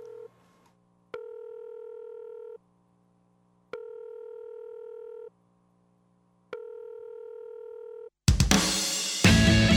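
A telephone call opens a heavy metal song: a repeating two-part telephone tone cycles about three times, with clean steady pitches and short gaps, before loud distorted heavy metal bursts in at the end.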